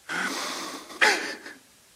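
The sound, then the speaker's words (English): People in a room breathe in together, a soft, drawn-out rush of air that swells into a louder gust before trailing off into quiet. “So everybody in the room, we're going to breathe in. One, two, three. Breathe in. Breathe out.”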